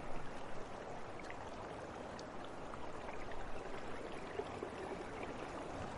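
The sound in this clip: Jacuzzi water bubbles and churns in a faint, continuous wash with no pauses and no voices.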